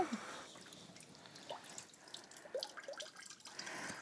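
Water dripping from soaked floral foam: a few faint, irregular drips and light trickles with no talk.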